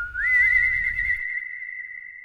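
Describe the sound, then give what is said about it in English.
A person whistles one long high note that slides upward at the start, wavers in quick ripples, then settles into a steady tone, with a faint low rumble under the first half. “His mysterious savior whistled,”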